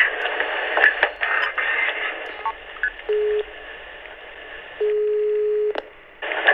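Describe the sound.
Ringback tone of an outgoing phone call ringing out over a narrow, noisy phone line: one short low beep, then a longer steady tone of about a second, separated by line hiss and crackle.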